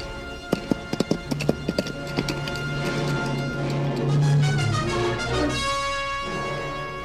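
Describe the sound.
Hooves of riders' horses clip-clop as they arrive at a crossroads, a quick irregular run of hoofbeats in the first seconds that gives way to sustained musical tones.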